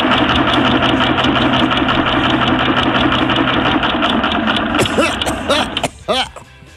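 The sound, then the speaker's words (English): An old, long-unused 'Doppler 3000' random birthday picker machine runs with a loud, steady mechanical clatter and whir for about five seconds, then sputters and winds down. “Time to fire up the old Doppler 3000 random birthday picker machine.”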